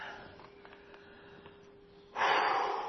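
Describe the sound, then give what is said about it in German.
One loud, rushing human breath for a breathing exercise comes at the end, sharp and breathy after a quiet stretch. “Einatmen, ausatmen.”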